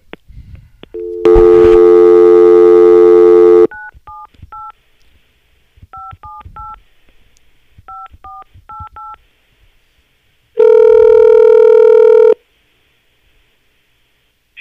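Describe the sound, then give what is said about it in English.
Touch-tone dialing beeps as a call is placed into a phone line: about ten short two-note keypad tones in groups of three, three and four, framed by a loud, sustained buzzing line tone before and after, with no talking. “I got to get Mike on the line here.”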